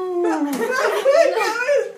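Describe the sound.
A voice imitates the cry of an elephant whose trunk has just been cut with a sword: a continuous, howl-like wail of about two seconds with wavering pitch.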